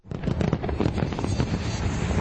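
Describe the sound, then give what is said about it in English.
Fireworks crackle and boom during a Chinese New Year display over Victoria Harbour in Hong Kong, a dense, continuous barrage of overlapping bursts and pops that stays loud throughout. “Residents in Hong Kong rang in the Chinese New Year Saturday with an extravagant fireworks display over Victoria Harbour.”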